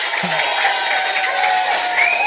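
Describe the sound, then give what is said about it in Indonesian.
An audience claps for the school principal at a school gathering. The applause is loud and continuous, with a brief voice heard near the start. “Tepuk tangan buat bapak kepala sekolah dulu dong.”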